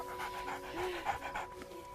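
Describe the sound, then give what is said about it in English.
Panting from a mid-sized dog with a short brown coat: quick, rhythmic breaths repeat steadily and stay fairly faint throughout. “A mid-sized dog with a brown short coat joins them, and Leo pets it.”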